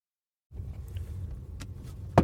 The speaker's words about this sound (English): I'm driving right now, of course